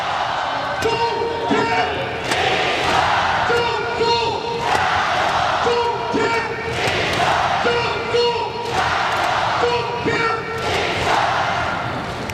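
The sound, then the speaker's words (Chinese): An arena crowd at a basketball game cheers in a loud, rhythmic chant repeated many times at an even pace, with a voice speaking over the din. “来吧，此时此刻需要全场的加油声，加油！”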